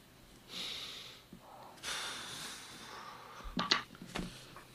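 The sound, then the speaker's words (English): A voice imitates a dragon taking a deep breath in a fantasy role-playing game, a quiet, long airy inhale followed by rasping, snorting exhalations. “The dragon takes another deep breath.”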